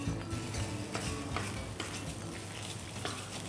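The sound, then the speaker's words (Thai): Curry paste being stir-fried in oil: a soft, steady sizzle with faint scraping stirs and light ticking, quiet from start to finish. “ผัดพริกแกงให้แตกมัน ใช่ค่ะให้กลิ่นไม่ใช่แต่ว่ามันมีน้ำมันข้างในของเขาเราก็เอาให้ไขมันเขาออกมาให้มันดูสวยงามเฉย”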